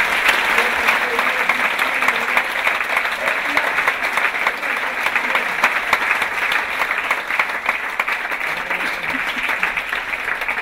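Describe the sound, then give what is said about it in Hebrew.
Audience applause at an event where supporters are being thanked: dense, loud, steady clapping that fills the whole stretch without pause, with no clear break or swell. “באמת לכולם, נתנו להם כפיים”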